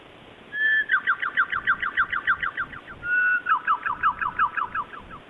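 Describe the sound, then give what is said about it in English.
A bird that has got indoors calls in two runs of rapid, evenly spaced chirps, each run opening with a longer whistled note. The calls are fairly faint, with no voices present. “How the fuck did a bird get in here?”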